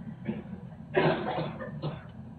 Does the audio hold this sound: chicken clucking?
no